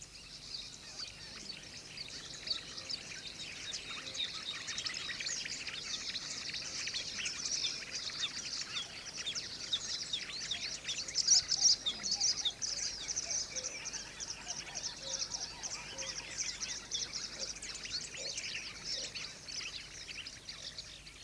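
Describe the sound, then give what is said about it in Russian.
Spring birds whistle and chirp in a thin, continuous high twittering made of many short calls. The sound stays fairly faint, with a slightly busier burst midway and no talk. “Птицы весной слетятся ко мне со всех сторон, свистят, теленькают, стрекочут.”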